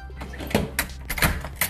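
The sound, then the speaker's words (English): Knocking on a door: a few sharp raps at uneven intervals, standing out clearly against a low, steady background hum. “what you're hearing right now is them knocking at the door. Let's let them knock one more time so you can hear it.”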